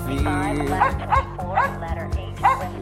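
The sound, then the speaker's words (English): A dog barks to wake a sleeping crew, giving a run of sharp barks and high yips in an uneven rhythm over a steady, sustained tonal backdrop. “Rex leaps to his feet and barks at the sleeping crew.”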